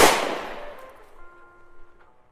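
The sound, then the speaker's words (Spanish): A gunshot fired during an escape: one sharp, loud bang at the start whose noisy tail fades over about a second, leaving faint steady tones behind. “Están disparando.”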